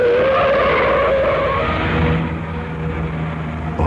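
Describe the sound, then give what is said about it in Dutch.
Car tires skidding on a street, a loud sustained screech over rumbling engine noise that runs for a few seconds and eases slightly toward the end. “Kijk uit. Pas op voor die wagen.”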